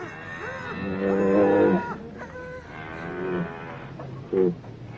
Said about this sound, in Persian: میدونم خسته میشین ولی بازم فشار بدین. خب اینطور که پیداست کمی آروم شده. من فکر میکردم الان گوساله به دنیا میاد.